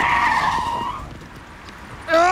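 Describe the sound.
Tires screech as a car brakes hard and skids on a road where wild boar piglets are crossing. The loud, steady squeal fades over about a second, then a voice cries out sharply.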